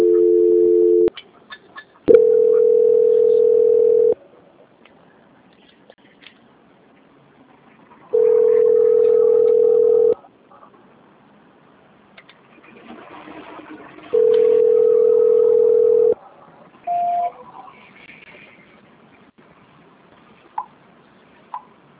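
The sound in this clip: Telephone line tones sound while a call is transferred: a brief opening tone, then three long, steady ring tones of about two seconds each separated by quiet gaps, and a short beep near the end.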